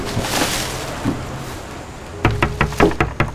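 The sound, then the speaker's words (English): Quick series of light taps on the glass of a house's front door, sharp and fairly loud, coming after a couple of seconds of low, muffled background rumble. “sets them down by the front door, and taps on the glass.”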